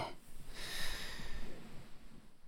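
A slow deep inhalation during a guided relaxation breathing exercise, a single airy hiss that swells for about a second and then fades.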